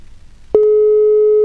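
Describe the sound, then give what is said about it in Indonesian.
A telephone line tone sounds while a call is being placed. After a short quiet stretch it starts abruptly with a brief click and holds at one steady, loud pitch to the end. “Langsung saja, ini aku coba terhubung barengan sama beliau terlebih dahulu nih”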